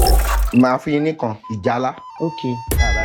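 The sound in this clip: A bell-like ding from a TV game show in Nigeria rings amid people talking, its steady tone lingering briefly under the voices.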